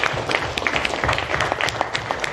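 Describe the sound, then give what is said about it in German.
Applause from an audience at a German business talk event after a speaker finishes, steady dense clapping for a couple of seconds, moderately loud with no voices over it. “Sehr schön. Applaus für Leon, Dankeschön.”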